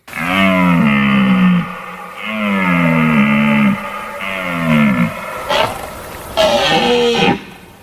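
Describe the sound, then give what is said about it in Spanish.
Red deer stags bellowing during the autumn rut (berrea) in Monfragüe, Extremadura. A series of long, loud, deep groaning roars with rich harmonics and bending pitch, separated by short pauses, with no voices. “La berrea está a punto de iniciarse en Monfragüe.”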